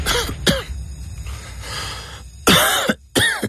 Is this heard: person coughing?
yes